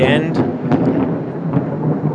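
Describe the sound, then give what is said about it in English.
Thunder from a dry Windsor thunderstorm with no rain: a loud, continuous low rumble that rolls on throughout, broken by a few sharper cracks. “Those aren't fireworks, folks. That's just a Windsor thunderstorm with no rain.”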